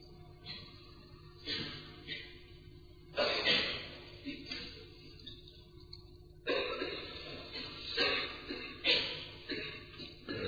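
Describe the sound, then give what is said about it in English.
Calm breathing through the nose: soft, airy breaths that rise and fall at slow intervals, with a few louder snorting inhales between quieter stretches. “Breathe very calmly through your nose.”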